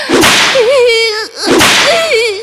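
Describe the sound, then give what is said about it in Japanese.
Two whip lashes striking skin already blistered from earlier whipping, each a sharp, loud crack followed by a drawn-out, wavering vocal tone. “水ぶくれになった、ムチの後に、再びムチ打つだなんて。”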